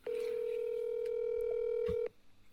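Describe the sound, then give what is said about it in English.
A telephone rings on an unanswered call: a single steady, buzzing ringback tone holds for about two seconds, then stops, leaving faint background noise. “I gotta call someone who actually picks up. I get to call again if someone doesn't pick up.”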